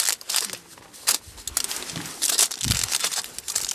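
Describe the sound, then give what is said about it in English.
Crinkling foil as a fur sample taken for DNA from a small female animal is wrapped, giving many irregular, crackly rustles and crunches of varying loudness throughout, with no talking. “A fur sample is taken for DNA and wrapped in foil.”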